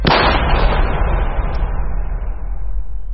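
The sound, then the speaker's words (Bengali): A revolver fires once in a tunnel, a loud sharp blast followed by a long, heavy rumbling decay that fades slowly over several seconds. “ইন্সপেক্টরের পকেটে ছিল revolver, চট করে সেটা বের করে তিনি থা করে চালালেন এক গুলি।”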